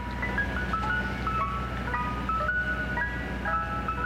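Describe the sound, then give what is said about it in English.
Mister Softee ice cream truck jingle on city streets in New York City: a tinkling melody of many short, bright notes that plays without a break over a steady low hum, holding an even, moderate loudness throughout. “New York City Mayor Mike Bloomberg has proposed banning that theme from city streets, where it spills forth all summer long from Mr. Softee ice cream trucks.”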